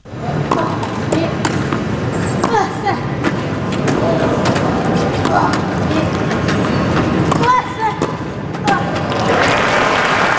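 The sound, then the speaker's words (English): Wheelchair tennis match with crowd applause, sharp intermittent impacts over a rolling, scraping court noise, and clapping from spectators. “Now, there are no specific clues in the sound there beyond the obvious, but that is tennis played by athletes who use wheelchairs, or not, according to Paralympian Brad Parks.”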